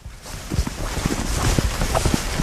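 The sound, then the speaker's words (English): Footsteps of people walking down a path through a field, a run of soft, uneven steps over a steady breezy outdoor hiss. “And we're walking down now to... It's Polentier, is it? Yeah. Polentier, yeah. Yeah. Lead the way there, we'll follow.”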